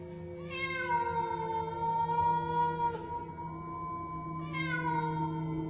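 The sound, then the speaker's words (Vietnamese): Cats behind a house meow and caterwaul in long, drawn-out, wailing cries. The first lasts several seconds and sags slightly in pitch, then a second loud yowl begins near the end. “Ở sau nhà bắt đầu vọng ra tiếng kêu của rất nhiều những con mèo khác.”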